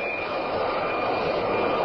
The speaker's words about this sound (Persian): در میانه جنگ ایران و عراق یک جت فالکون ایرانی در فرودگاه بغداد به زمین می‌نشیند.